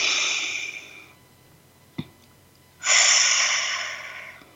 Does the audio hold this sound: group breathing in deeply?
yes